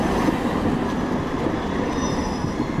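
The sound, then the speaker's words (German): Trams pulling in and out at a busy central interchange stop in Bremen's city centre: a continuous loud rumble of rail traffic with faint high wheel squeal running over it, steady throughout and free of talk. “An der Bremer Domsheide, dem zentralen Umsteigeknoten in der Innenstadt, fahren im Minutentakt Bahnen ein und aus.”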